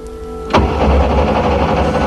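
A car engine is cranked on a deserted road as the driver tries to start it. A low steady hum gives way to a sudden loud burst of continuous whirring, grinding engine noise that holds to the end.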